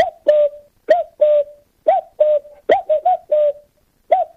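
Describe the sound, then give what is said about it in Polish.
A man's voice imitates bird calls, giving a long series of short, whistle-like cooing notes, often in quick pairs, separated by brief gaps. “będą to ptaszki, które się nauczyłem naśladować, mając jeszcze lat naście, kiedy chodziłem do szkoły podstawowej, tak? Ptaszek pierwszy.”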